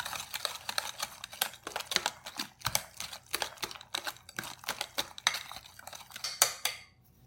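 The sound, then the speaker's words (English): Thick gluten-free banana cake batter, for a hummingbird cake, is stirred in a bowl with a sturdy tool rather than a whisk. It gives many quick clicking and scraping strokes in an uneven rhythm, with no talk. “So we're going to switch to this guy. And it'll take a little longer to stir, but I guarantee you this is a great tool.”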